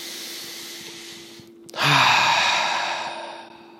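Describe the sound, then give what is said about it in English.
A deep, breathy exhale during a guided breathing exercise, loud at the start and fading slowly over nearly two seconds, after a stretch of soft, steady hiss, with no talk. “Maybe you need to take a deep breath. Let's do one together.”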